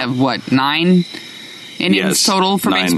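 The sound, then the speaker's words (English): Crickets chirp outdoors in the evening, a thin, steady high trill that runs beneath people talking loudly in the foreground. “So we are outside this evening. You may hear the crickets chirping behind us.”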